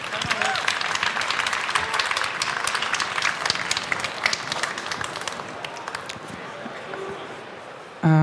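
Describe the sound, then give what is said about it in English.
Audience applause welcoming a speaker onto a stage at a Chaos event: sustained clapping from a large crowd lasting about eight seconds, thinning slightly toward the end before cutting off abruptly. “Give her a warm hand.”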